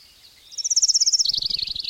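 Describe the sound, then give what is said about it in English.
A bird chirping outdoors in a rapid, high trill of many quick notes that starts after a quiet moment and runs to the end, loud and alone. “the fucking birds”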